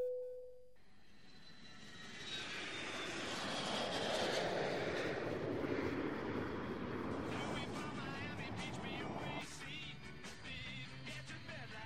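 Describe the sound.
A jet airplane takes off with a loud, broad engine roar that swells and then holds steady, while a high whine rises above it at the start.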